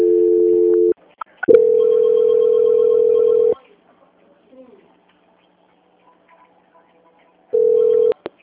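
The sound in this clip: A telephone line tone sounds during a call transfer, with long, steady, mid-pitched beeps broken by gaps. A few small clicks and faint handling noises fall between the tones.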